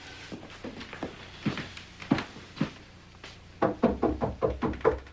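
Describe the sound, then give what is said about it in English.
Footsteps climb a staircase as a string of soft thumps, spaced irregularly at first, then settling into a quicker, steadier run of footfalls toward the end. “walks up the stairs”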